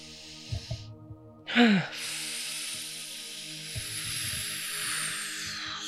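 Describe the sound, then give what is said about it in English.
Deep breaths drawn into the low belly during a breathing exercise: a sharp, slightly voiced intake, then a long, steady breathy hiss lasting several seconds, with soft low knocks underneath. “we'll close our eyes and we'll take a few deep breaths into the low belly”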